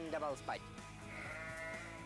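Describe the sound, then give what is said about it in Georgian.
Sheep and goats bleating near a campsite: a couple of short, wavering bleats at the start, followed by a steady, droning stretch with a voice audible underneath. “კემპინგში ჩემი მეზობლები ცხრეები და თხები აღმოჩნდნენ.”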